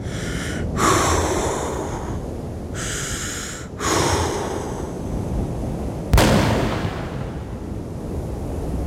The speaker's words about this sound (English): Alpha One, give me your rifle. Sir, he's too far. Give me the damn thing.